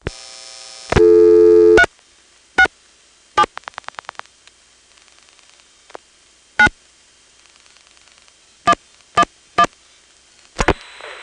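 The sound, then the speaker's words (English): A Stromberg-Carlson XY telephone exchange, its register sender dialing out. A loud steady tone burst gives way to sharp switching clicks, a rapid even train of dial pulses, and scattered single clicks over a faint line hiss. “Like everything else in this county, except for Hoadley and possibly Haymarket, it is a Stromberg XY. When you call 367 from here, the register sender dials, not surprisingly, 77.”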